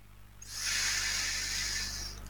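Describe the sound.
A deep inhale is drawn as a single soft, steady breath of airy hiss. It lasts under two seconds and is heard alone, without voices.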